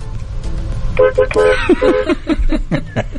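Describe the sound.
A car horn honks in traffic. One longer blast is followed by a rhythmic run of several short toots, with voices heard alongside.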